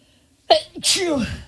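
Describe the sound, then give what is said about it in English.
A human sneeze bursts loudly out of near silence, a sharp onset followed by a longer breathy, voiced release. “Time to sneeze. Two sneezes.”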